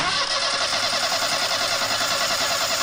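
An engine starts up to spin a propeller on a craft undergoing test runs after repairs, producing a dense, steady, loud roar that holds evenly throughout.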